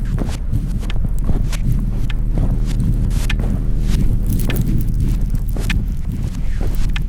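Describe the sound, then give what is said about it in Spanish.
Footsteps of a person walking across a park sound as a steady run of many soft steps, with constant wind-like noise underneath. “Vuelvo caminando, cruzo el parque.”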